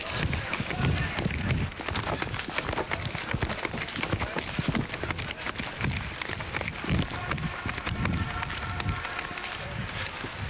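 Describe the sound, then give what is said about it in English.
Many people run on street pavement, their quick overlapping footsteps buried in a dense, constant wash of crowd and outdoor noise. “People are beginning to run again. They're heading towards First Avenue.”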